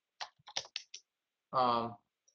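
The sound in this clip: Typing on a computer keyboard, a handful of quick, faint keystrokes tapped in a short irregular burst.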